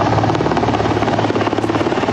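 A military air force helicopter on a rescue flight gives a loud, steady rotor thump with a constant engine drone that holds without a break. No voices are heard.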